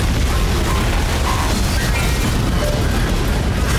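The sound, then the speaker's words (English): A theme tune blows up in a comic explosion effect: a loud, continuous roar of dense, rumbling noise that holds steady for the whole stretch without a break. “We're only a few seconds into the programme and already the theme tune's exploded.”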